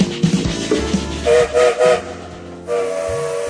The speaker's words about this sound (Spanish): Sonó el silbato y ya estamos en marcha